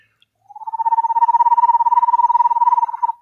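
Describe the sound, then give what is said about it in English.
A person imitates toads and frogs calling in water with one loud, rapidly pulsed trill held at a steady mid pitch for about two and a half seconds, with no other sound. “that's what the toads and frogs do in the water, you know, calling their girlfriends.”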